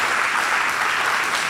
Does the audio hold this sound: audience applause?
yes